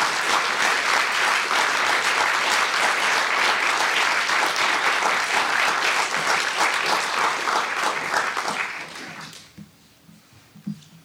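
Audience applause welcomes two guests at the Los Angeles Public Library. Long, steady clapping from a crowd holds for about nine seconds, then quickly thins and dies away, leaving only a few faint scattered sounds.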